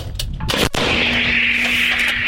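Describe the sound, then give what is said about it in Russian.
An American 155 mm M777 howitzer fired by a Ukrainian crew gives one sharp, heavy blast, followed by a lingering rushing roar over steady low rumble. “Украинский расчет 155-миллиметровой американской гаубицы 777 ведет огонь по противнику.”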